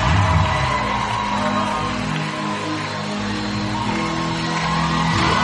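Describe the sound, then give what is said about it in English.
An audience at a church session claps and cheers to welcome a pastor, a dense, steady roar of applause with whoops, holding strong from start to finish. “Put your hands together, celebrate. Celebrate him.”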